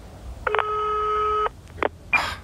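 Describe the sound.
A telephone ring tone sounds on a German mobile call before the voicemail picks up. One sustained, bright tone lasts about a second, followed by brief clicks and a short burst of noise.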